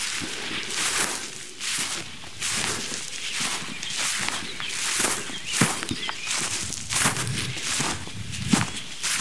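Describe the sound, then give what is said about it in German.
Footsteps walking uphill along a path on a fresh morning, with many steady rhythmic steps forming an even, moderately loud pattern of soft bursts throughout. “wenn die gedämpft ist und ihr die Schritte genießen könnt. Wir gehen jetzt mal hoch zu Hasens Rast”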